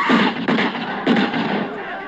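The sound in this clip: Three sharp gunshots fire silver bullets, coming as abrupt bursts within the first second or so and spaced unevenly. People are talking around the shots.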